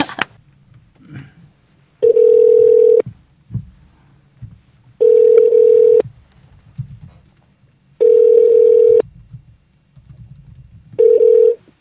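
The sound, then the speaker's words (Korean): Ringback tone as a telephone call connects: four steady tone bursts, each about one second long and spaced about three seconds apart, with the last one cut short. Faint low rustling fills the gaps, with no talk. “전화 연결 한번 해보겠습니다.”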